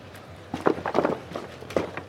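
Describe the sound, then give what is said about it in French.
Footfalls of a four-legged Spot robot walking over wooden bricks: a few hollow, knocking steps in an irregular patter, fairly faint. “Et là, qui marche sur des, sur des briques de bois. Alors, c'est pas quelqu'un, c'est quelque chose. Euh, c'est quelque chose avec quatre pattes. Et il s'agit du robot Spot.”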